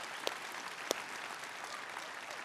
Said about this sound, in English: So could we put our hands together and give them a big shout out?